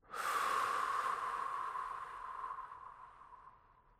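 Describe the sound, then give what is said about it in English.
A single slow, deep exhale: a long breathy hiss that lasts about four seconds, loudest at the start and gradually fading away, heard alone without any talk. “breath hold, deep breath out and slow.”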